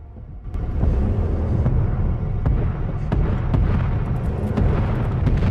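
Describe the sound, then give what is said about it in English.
A line of explosions tearing up a beach in a film, a deep, continuous roar of blasts that kicks in after a brief quieter lead-in, punctuated by repeated sharp cracks. “Face down in the sand, Tommy sees a line of explosions working their way up the beach towards him.”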